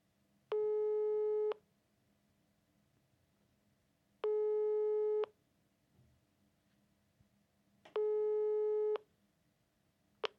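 A telephone ringback tone sounds on an unanswered call. Three steady, faint, mid-pitched tones of about a second each are separated by roughly three-second silences, and a fourth tone begins at the very end.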